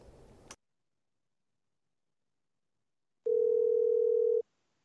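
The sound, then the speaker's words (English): A telephone tone sounds while a number is being called: a single loud, steady mid-pitched tone holding for about a second, after a brief burst of noise and a stretch of silence. “here, let me try Winnie's other number”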